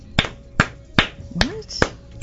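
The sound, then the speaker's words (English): Five sharp, single claps from one person land at a slow, even pace, each crisp smack standing alone with quiet gaps between them. “What? You just started clapping.”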